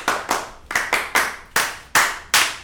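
Hands clap a rhythmic cheer: eight sharp, loud claps fall in a steady, grouped pattern with short pauses between, alone without voices.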